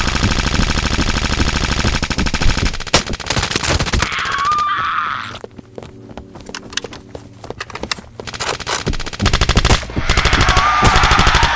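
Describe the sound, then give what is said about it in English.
Machine guns firing in rapid automatic bursts: dense, loud, crackling volleys that run for several seconds, drop to a short lull of scattered shots, then surge back into sustained fire. “They're moving towards us. Open fire.”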